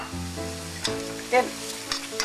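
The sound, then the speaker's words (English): Onions and mushrooms frying in a pan as they are stirred, a steady crackling sizzle with a few brief scraping knocks from the utensil moving through the pan. “Now I'm going to give my onions and mushrooms a stir,”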